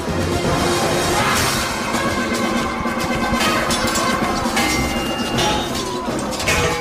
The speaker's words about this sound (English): Now you can hear the sound of sword blade on sword blade.